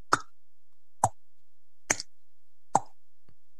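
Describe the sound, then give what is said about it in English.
A voice imitates a table tennis rally with five sharp, hollow mouth pops spaced at a fairly even pace, alone with no talking. “And then I've ended the whole section by going, making the sound of table tennis playing.”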